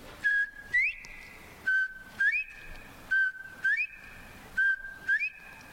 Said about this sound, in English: along the clearing, you probably see and hear some bobwhite quail.